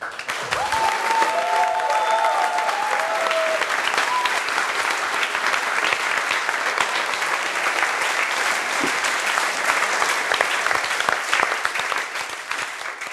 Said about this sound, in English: I think we can also have a round of applause for Christian for the Chosen One party.